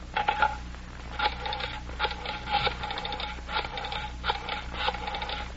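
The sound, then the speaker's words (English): A telephone being dialed: a quick series of short, bright tone bursts in an irregular rhythm, heard alone without talk over a low steady hum. “I'm calling Lane's girl.”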